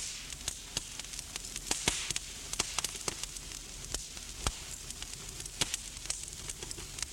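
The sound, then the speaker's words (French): A fire burns in a fireplace, faint and continuous, with many sharp, irregular pops and crackles over a soft, steady hiss. “Le feu brûle dans la cheminée.”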